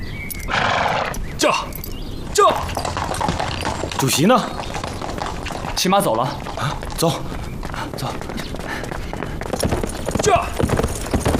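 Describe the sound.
A horse neighs several times amid steady clip-clopping hooves as a rider leaves, with voices shouting urgently over the commotion.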